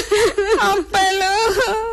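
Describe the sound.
A person crying in a few drawn-out, tearful wails with wavering pitch, loud and close with no other sound.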